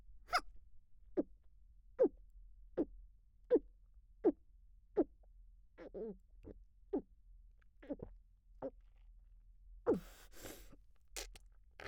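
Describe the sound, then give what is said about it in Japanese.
Gulping as someone downs a drink in one go: a long, steady series of soft swallowing sounds at a regular pace, alone, with a louder, harsher burst near the end. “指揮官様、ちゃんと飲んであげるから、しっかり見ててよ。じゃあ、せーの。”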